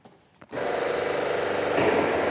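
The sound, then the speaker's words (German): A pipe bending machine starts up after a brief quiet moment, then runs with a steady buzzing mechanical drone. The drone stays loud and even and swells slightly toward the end. “Das ist eine Biegemaschine. Kannst du mir mal vorführen, wie das geht?”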